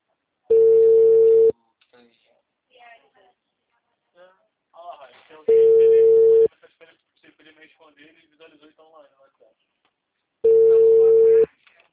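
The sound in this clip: A telephone ringback tone sounds while a call is being placed, three steady one-second tones spaced evenly about five seconds apart, with faint voices in the gaps between them.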